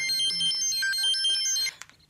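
A phone ringtone sounds as an early-morning call arrives: a bright, melodic electronic tone that plays steadily and then cuts off after less than two seconds.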